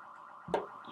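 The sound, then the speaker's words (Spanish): A faint electronic alarm sounds from the house next door, a thin steady tone with one brief, louder chirp partway through. “pues la pinche alarma de la chingada. No, güey, que nunca la paguen. Ya sabes que siempre pasa como que. Que se queden toda la noche sonando. No, no, de la casita al lado, ¿no?”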